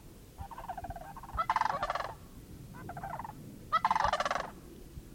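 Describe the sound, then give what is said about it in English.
Big gray birds with long necks and legs and a red patch on the head calling in two loud bouts of rattling, rolling calls. Each bout builds into higher, overlapping calls from several birds. “There they are. Really big gray birds with a red patch on the top of the head. Really long necks and legs.”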